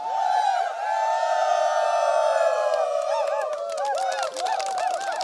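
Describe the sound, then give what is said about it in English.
Tribal wrestlers chant and whoop in an elaborate ritual war dance and welcome: many overlapping voices hold long, sliding tones, then break into a flurry of short rising-and-falling whoops and cries toward the end. “renowned for their wrestling skills, but they're equally well known for their elaborate rituals. I'm not absolutely sure if this is a war dance or a welcome. Happily, it turns out to be both.”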